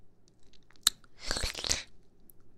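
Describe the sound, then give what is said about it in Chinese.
Crunching of a mint candy: a sharp click, then a short burst of brittle, crackling crunches, fairly quiet and close, with no talking. “吃了薄荷糖吗？”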